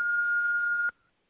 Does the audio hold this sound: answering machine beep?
yes